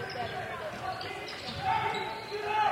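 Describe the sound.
A basketball bouncing off the back of the rim after a missed second free throw during a game, the ball's thuds faint beneath a commentator's continuous voice.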